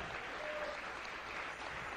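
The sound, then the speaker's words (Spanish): A church audience applauds, a dense, even wash of clapping that holds steady throughout, with no voices standing out. “Dele un aplauso al que vive.”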